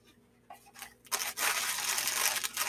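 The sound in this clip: Tape and wrapping paper tearing as a taped-up present is opened: a few short crinkly snaps, then a loud, sustained ripping that runs to the end.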